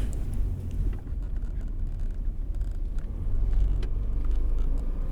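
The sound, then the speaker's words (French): A car being driven: a steady low engine and road rumble runs throughout, with faint rattles over it and a slight swell in loudness toward the end; nobody speaks. “Je crois que je suis habituée à cette voiture. Alors, vous trouvez que je conduis bien?”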